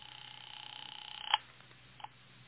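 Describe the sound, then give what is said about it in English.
Telephone dialing in a phone booth: a faint, rapidly pulsing tone runs steadily, then stops at a sharp click, followed by a second softer click a moment later. “I went back to the phone booth and called Dr. Reichel's home.”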